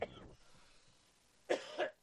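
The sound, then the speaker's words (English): A few harsh coughs from someone whose water went down the wrong pipe, one short burst at the start, then a quiet gap before a cluster of rough, throaty coughs near the end. “My water went down the wrong pipe. I'm dying right now. Give me a second.”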